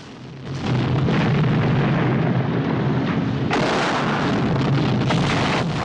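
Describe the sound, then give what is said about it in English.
Explosions and a roaring fuel fire around a compound with a parked lorry: loud, sustained rumbling blasts that swell in at the start, with a brighter, harsher burst breaking in partway through and continuing to the end. “More explosions billow around the compound. Fuel gushes over a parked lorry, and clouds of flame burst up into the air.”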